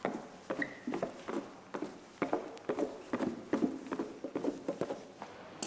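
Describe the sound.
Footsteps going down a flight of stairs toward a café below, a steady run of many soft, regular thuds and scuffs with no talking.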